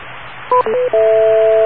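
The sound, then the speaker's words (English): Touch-tone telephone keypad tones, each made of two mixed pure pitches, sound over a steady hiss. Three loud beeps follow one another, with the last held steadily until the end. “even if the individual tones are the purest thing in the world, the touch tone pad has to then mix the two tones together”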